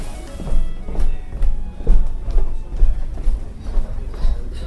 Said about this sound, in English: the bar Los Galgos has catered to a mix of lawyers, professionals and tourists for almost 100 years. Waitresses bustle behind the chrome counter as customers chatter over thick steak and egg